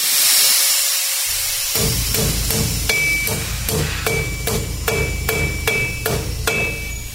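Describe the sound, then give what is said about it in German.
Hammering rings out in a busy Buenos Aires workshop where aluminium is bent, steel frames are bolted and electronics are soldered to build radio antennas, transmitters and masts. Many sharp blows fall in a steady rhythm over a constant background hum. “Aluminium wird gebogen, Stahlkonstruktionen verschraubt und Elektronikelemente gelötet. Hier werden Antennen, Sender und Masten für freie Radios gebaut.”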